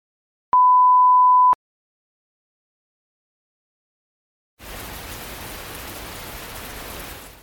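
Rain falling outside the Dutch parliament building in The Hague during a live street report: a steady, even hiss from midway to the end, preceded by a single one-second electronic beep and a stretch of silence.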